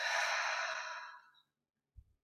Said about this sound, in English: Take three deep breaths.